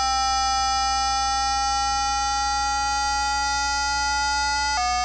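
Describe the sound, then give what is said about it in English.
A steady, buzzy electronic tone from a tuner set to C, its calibration being raised. The tone sustains with many harmonics and its pitch creeps slightly upward, then shifts abruptly near the end. “So, let's turn the tuner on. This is the tuner, and it's set to C.”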